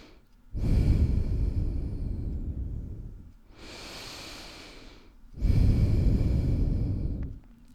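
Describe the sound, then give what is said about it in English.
Slow, deep breathing during a guided breathing exercise: three long airy breaths, the first and last loud and full, the middle one softer, with no talking. “breathe. Just breathe.”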